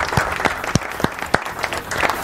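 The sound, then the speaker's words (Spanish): Audience applause at an informal evening show after a man sings: light, scattered clapping with individual claps standing out in an uneven rhythm, moderately loud and without talk. “Fuerte el aplauso para el señor Marcos Canteros”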